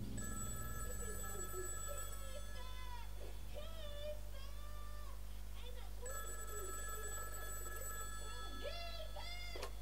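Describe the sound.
A telephone rings twice in a house where a television is playing, each ring a bright electronic burst lasting a few seconds, heard faintly amid steady background noise and sliding chirping sounds.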